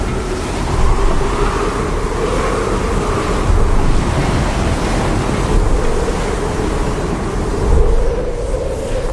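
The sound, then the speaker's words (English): Fierce waves crash against a sailboat at night: a continuous roaring rush of water and wind that swells into a few louder surges, with no voices. “Svante looks outside as fierce waves crash into the sailboat”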